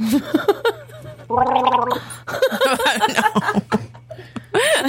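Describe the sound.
A person imitates Chewbacca's roar with a gargling, throaty growl, broken into rough bursts, while others chuckle and laugh around it.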